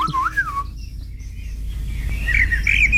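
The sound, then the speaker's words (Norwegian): Song of a Eurasian blackbird, a bird of gardens, parks and woodland: a fluting whistled phrase opens, then a quieter pause, then higher twittering notes toward the end over a low steady background rumble. “Turdus merula, Turdus eller svarttrost. Merula. Ja. Den ses jo vanligvis i hager, parker og skogsområder, høres ut som dette.”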